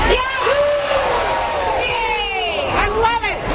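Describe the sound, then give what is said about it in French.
A crowd cheers at the first official pancake breakfast in downtown Calgary, marking the start of a Franco-Albertan festival and the unofficial start of the Stampede. Loud, continuous whoops and yells rise over a busy babble of voices. “C'est ce que vous entendez, c'est le premier déjeuner aux crêpes officiel qui se déroule en ce moment au centre-ville de Calgary”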